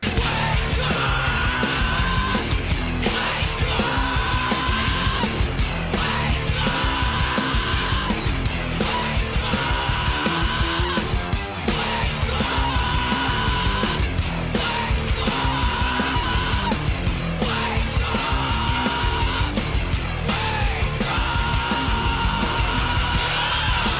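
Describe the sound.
A crazy, aggressive scream used as an alarm-clock wake-up sound: loud, harsh yelling over a dense, driving backing that repeats in steady cycles and never lets up.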